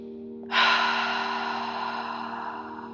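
A single deep breath during guided meditation: a sharp, airy intake that becomes a long exhale and slowly fades, over a soft, steady low tone.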